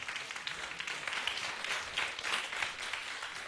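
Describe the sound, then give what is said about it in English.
Audience applause welcomes a performer onto a stage, a fairly quiet but continuous patter of many hands that swells slightly in a few places without fading out. “Please welcome Joshua Leung. 俾啲掌聲，梁啟新。”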